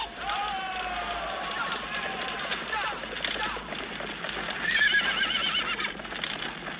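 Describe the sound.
Horse neighing and galloping in a dramatized Three Kingdoms battle scene, shrill whinnies over continuous hoofbeats, with voices heard alongside.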